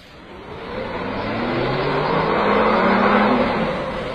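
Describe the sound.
A car pulls away as the driver sets off, its engine revving steadily higher in pitch and growing louder over four seconds, with no talk.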